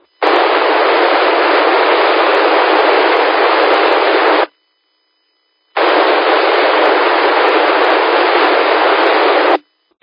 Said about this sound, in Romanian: cineva încearcă să ne contacteze prin repetor, din păcate doar zgomot, fără modulație